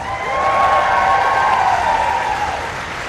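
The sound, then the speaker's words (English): Foreign Office staff applaud and cheer as a visiting president arrives for talks with the Prime Minister: steady, dense clapping mixed with crowd noise that holds for about three seconds and then eases slightly. “Volodymyr Zelensky was also cheered by staff from the Foreign Office as he arrived for talks with the Prime Minister.”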